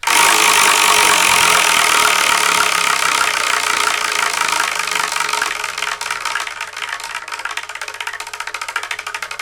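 A spinning wheel clicks rapidly, making a loud, dense rattle. Toward the end it thins out into more distinct, separate clicks as the wheel slows.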